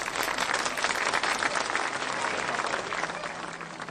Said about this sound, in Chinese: 哇，真不错，大家请鼓掌。